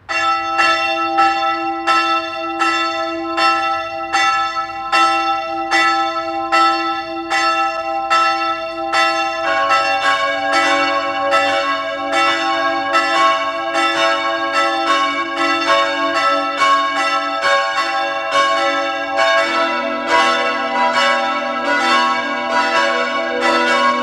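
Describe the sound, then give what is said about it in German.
Parish church bells in Lannach, Styria, ringing at noon: a steady run of many overlapping strokes with a long shimmering ring, a deeper bell joining partway through the peal. “Sie hören die Glocken der Pfarrkirche zum heiligen Franz von Assisi in Lannach in der Steiermark.”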